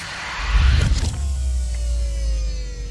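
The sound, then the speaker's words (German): Mechanical whirring of a spaceship command bridge retracting: a loud, rumbling burst early on gives way to a steady motor-like hum with a low drone and a faint, sliding whine. “Ich fahre die Kommandobrücke ein.”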